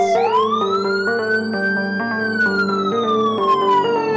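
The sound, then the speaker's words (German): Segment intro jingle built on a police-style siren: the wail sweeps up at the start, holds high, then slowly falls near the end. Loud stepping synth notes run beneath it, with no talk. “wollen wir doch mit unserer Lieblingskategorie starten und mit Raphaels Lieblingsjingle, nämlich die Quickies.”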